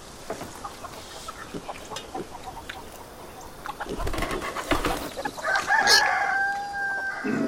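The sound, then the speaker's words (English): Chickens cluck and a rooster crows outdoors. Steady, busy clucking and scratching runs throughout, and a loud, drawn-out crow rises above it near the end. “Mija, then Hibong, each look outside at the chickens”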